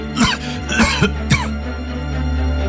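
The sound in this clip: An old man coughs in a short run of harsh, rasping bursts close together, followed by a steady low hum.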